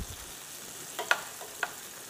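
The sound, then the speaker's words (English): Onions and peppers frying in a pan, throwing off steam: a faint, steady sizzle with a few brief, sharp pops rising above it. “The onions are cooking too, which is good too. So they'll come down.”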